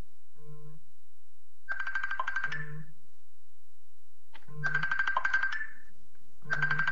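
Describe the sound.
A telephone ringtone plays alone: an electronic pattern of low steady tones alternating with bright, buzzy, warbling bursts, repeating in cycles over several seconds.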